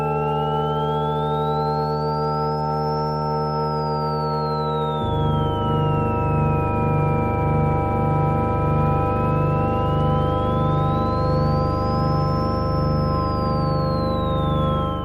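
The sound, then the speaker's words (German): Sonified planetary orbits: a pure sine tone glides slowly up and down in a smooth, repeating wave over steady sustained tones. A lower pulsing drone joins partway through, and the sound is continuous and electronic throughout. “Planetenbahnen wurden auch schon hörbar gemacht.”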